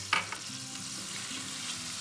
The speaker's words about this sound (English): Now it's time to start adding our fat. I turn the heat off. It is going to continue to cook for just a few minutes. So we're gonna add our butter.